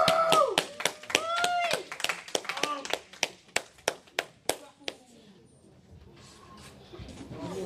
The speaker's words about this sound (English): Big round of applause